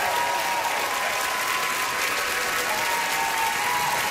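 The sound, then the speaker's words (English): Applause from a concert audience at a performing arts centre in Vancouver after a song: dense, steady clapping that stays loud and even throughout, with no break. “Come on, Vancouver, make some noise!”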